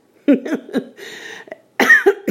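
A nervous person coughs a few short, rough times, with throat noise and breathy rasps between the bursts, standing alone against quiet.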